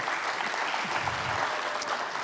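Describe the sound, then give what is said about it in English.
Audience applause at a church gathering, a steady patter of many hands that stays fairly soft and even throughout without a clear build or cutoff. “Thank you for the applause. I usually say hold that until the end of the week, okay?”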